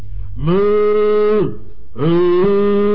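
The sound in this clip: A human voice imitating a cow mooing in two long, drawn-out, low calls separated by a short pause. Each call is loud and sustained, and the first bends downward in pitch as it ends.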